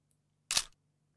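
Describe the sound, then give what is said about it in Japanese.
A single camera shutter click as a photo is taken: one short, sharp snap, faint and isolated against near silence. “今、おじさんの顔撮ったから。”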